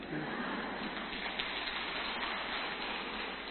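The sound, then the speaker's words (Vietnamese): An audience at a Buddhist teacher's talk claps, a steady, dense patter of many hands with no clear break or swell, moderately loud throughout. “Đấy, bảo không cảm ơn thầy cũng được, cũng vỗ tay đôm đốp ra.”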